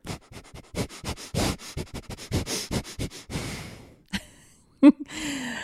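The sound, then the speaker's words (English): Forceful exhales through the nose as a bellows-style breathing exercise: about a dozen sharp, rhythmic puffs in rapid succession, followed by a few slower breaths and a sniff. “It's just a forceful exhale out through the nose, and you continue exhaling out through the nose. So it will sound a little something like this.”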